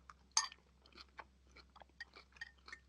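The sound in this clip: Close-up chewing of food: a quiet run of many small crunchy, moist bites and smacks in an uneven rhythm, with one sharper crunch near the start and no talking.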